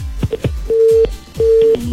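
Telephone line tone after a call cuts off: a short mid-pitched beep followed by two longer steady beeps, set among low thumping clicks on the line.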